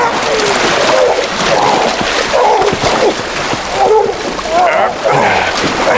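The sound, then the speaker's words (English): Water splashes and sloshes as a man's head is forced down into a water trough, churning in bursts with voices mixed in. “grabbed a handful of hair and pressed his head underwater”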